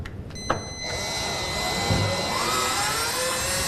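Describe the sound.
Steady whir of a power screwdriver fastening roller-shutter guide rails with inner brushes to a wall on both sides of the frame. A brief faint start, then a loud continuous motor whine with high tonal hum.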